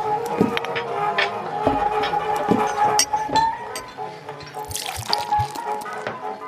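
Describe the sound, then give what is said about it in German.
Liquid splashing and dripping as a freshly tapped butterbeer is poured, with irregular drips and occasional light clinks at a low, steady level. “So, ein frisch gezapftes Butterbier für den Mo.”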